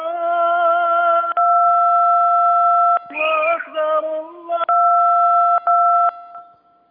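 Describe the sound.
A loud, steady electronic phone tone follows a caller's dropped line, held in long stretches with brief breaks and a garbled patch midway, then fading out at the end.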